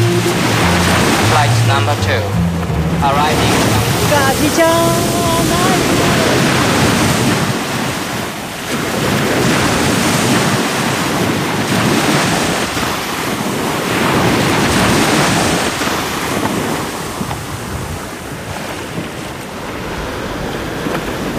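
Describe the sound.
Sea waves wash against a coral reef shore on Mayotte. The surf gives a continuous, loud roaring hiss that swells and eases, with heavy wind gusts buffeting the microphone throughout.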